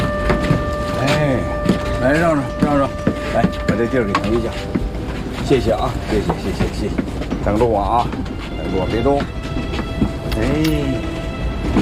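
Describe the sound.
Train pulling into a crowded station, a heavy continuous rumble with steady sustained tones running beneath it, while people talk loudly over the noise.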